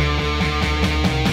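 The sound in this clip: Opening riff of a rock song on distorted electric guitar: loud, dense chugging chords struck in a fast, steady pulse, with a thick sustained tone between hits.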